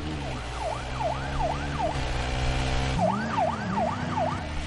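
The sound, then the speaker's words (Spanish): Police car siren on narrow favela streets, a loud, fast rising-and-falling wail in two bursts with a short gap between them, over a steady low engine rumble. “El coche patrulla le sigue.”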